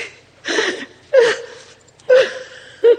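A person weeping: four sobbing, gasping bursts, some ending in a short high whimper, separated by quieter breaths.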